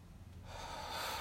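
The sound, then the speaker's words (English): Faint breathing from the chest, a single shallow breath drawn while trying to breathe deeply, rising softly into a steady airy rush with no voice. “even like when I try to breathe deeply, I'm still in my chest. You can hear it.”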